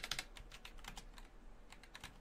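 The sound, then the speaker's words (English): Typing on a computer keyboard: a quick, irregular patter of many light key clicks with brief pauses, heard alone without talk. “If I could type.”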